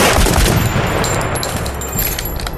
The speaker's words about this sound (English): Guards, fire a warning shot.